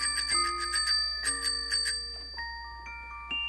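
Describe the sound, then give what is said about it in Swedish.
A small bell on a child's red tricycle rings out in a quick series of bright, high, metallic dings, then fades into lingering tones and a few softer strikes. “pedals and a seat that has springs and wheels that have spokes that don't speak till they're spoken to and a little bell that I can ring. See? See?”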